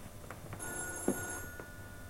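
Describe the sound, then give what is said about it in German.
A telephone rings: a bright, warbling electronic ring in a short burst over a faint steady background hum, with no talking. “Ach, Jochens Telefon klingelt. Geh doch bitte mal hin, ja?”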